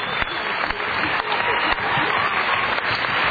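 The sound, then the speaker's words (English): A crowd applauds the moderator at the close of a panel debate on agriculture. Thick, even clapping runs without a break for the whole stretch, with a few sharper claps standing out from the wash. “ask everyone to give a big round of applause for Mark, our moderator.”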